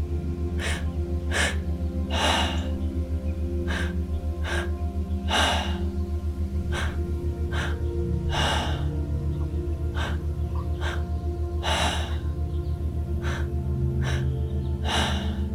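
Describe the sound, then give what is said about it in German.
Slow, deliberate breaths taken during a guided breathing meditation, heard as soft airy bursts that recur irregularly over a sustained tonal drone. “Atme bewusst dorthin.”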